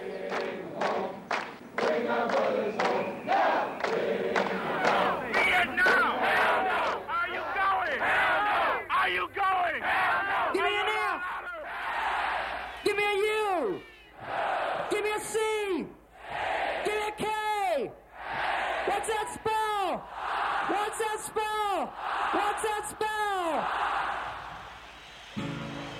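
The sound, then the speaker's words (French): A large festival crowd chants a single word in unison, with many loud shouted syllables in a steady rhythm, quick and dense at first and then more spaced. “il se tourne vers la foule, ce qui d'ailleurs leur vaudra des ennuis avec la police énorme, et il ne fait plus scander Fish, mais Fuck, F-U-C-K, qui est le fameux fuck qu'on entend scander à Woodstock.”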